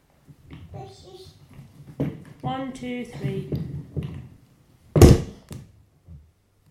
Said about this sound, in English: let's not thump it on the floor. It's going to scratch the floor